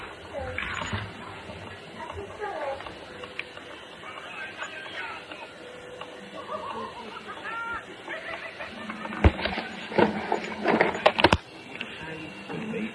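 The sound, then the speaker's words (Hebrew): A washing machine runs with sloshing water and steady churning, broken by occasional clicks and sharper knocks toward the end. Voices are heard faintly over the moderate, continuous machine noise. “נבדוק מה שלום מכונת הכביסה שלנו.”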